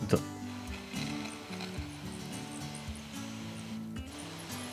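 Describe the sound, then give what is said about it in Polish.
A voice imitating a Mars rover driving, making a steady, mechanical droning hum whose pitch shifts in steps. The hum is fairly quiet and continues for nearly five seconds. “ja teraz zrobię taką gimnastykę i spróbuję zaprezentować, jak brzmi pojazd mechaniczny, który porusza się po Marsie.”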